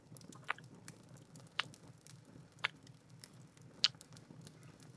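Soft kissing and nibbling on a neck, with four distinct wet smacks spaced about a second apart over a faint, steady background of quiet mouth sounds.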